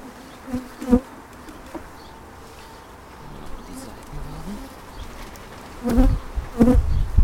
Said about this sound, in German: Bei der rausgefischten Königin in dem Behältnis, da tummeln sich jetzt ganz viele Bienen dran herum.